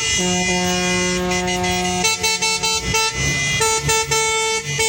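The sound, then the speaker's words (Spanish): City street traffic where vehicles queue for fuel: loud, sustained car and truck horns blare in overlapping chords that change partway through, over a steady rumble of motor traffic. “pasemos a escuchar cómo están las calles de nuestra ciudad.”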